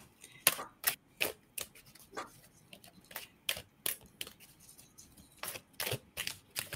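Playing cards being shuffled and handled during a card reading, heard as many sharp, dry papery snaps at an uneven rhythm, faint and alone with no talk.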